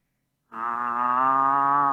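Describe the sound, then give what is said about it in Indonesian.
A cow that has got loose lets out one long, loud moo after a brief silence. The call holds a steady, fairly low pitch to the end, with no talking. “Apa tuh? Sapi ini ucul. Sapinya ucul.”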